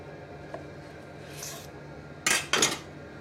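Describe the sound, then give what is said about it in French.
A knife cuts up a brioche decorated with dried figs, fresh from 30 minutes baking at 180 degrees: a soft scrape, then two louder rasping cutting strokes close together near the end, over a quiet background. “Et voilà, après 30 minutes passées au four, on passe au découpage.”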